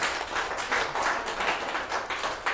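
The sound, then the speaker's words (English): A light smattering of applause from an audience at a meeting: a steady wash of overlapping hand claps that swells and eases gently, with no voices. “an appropriate smattering of applause.”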